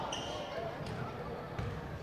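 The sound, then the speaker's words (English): A few faint basketball bounces on the court during a high school boys game between Riverdale and Shelbyville, with soft thuds under voices and crowd noise. “One dribble, shot it, got it, and the Warriors on top.”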